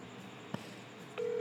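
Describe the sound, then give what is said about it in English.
Telephone call being placed: a single soft click, then a steady mid-pitched ringing tone starts about two-thirds of the way in and holds unbroken to the end, fairly faint and with no talk. “Oh, we're calling him right now?”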